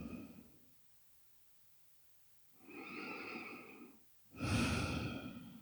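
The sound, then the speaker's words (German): Deep, slow breathing during a guided relaxation exercise. A breath fades out at the start, then after a quiet pause come two long, airy breaths, the second louder and fuller. “nochmal tief ein- und ausatmen.”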